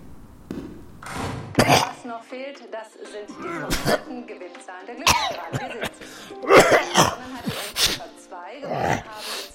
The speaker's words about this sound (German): Da kannst du husten, wie du willst. Die Lunge hat immer schon eine neue Überraschung parat.